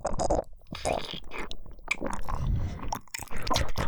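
Eating sounds: wet chewing and biting on food, with many irregular bursts of mastication and a few crunchy bites, alone and fairly quiet.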